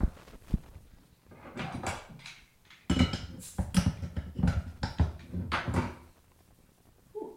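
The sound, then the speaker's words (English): Opening a bottle of Imperial Pumpkin Ale brings a string of clattering knocks, clinks and scraping bursts, fairly faint and uneven in spacing. “Imperial Pumpkin Ale. It's packed with pumpkin and roasted pumpkin seeds and spiced with cinnamon, nutmeg, cloves, and allspice. So let's crack this open”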